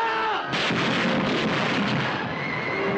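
A volley of rifle fire from multiple rifles near a bog: a loud, dense blast of gunfire erupts and rolls on as sustained crackling noise.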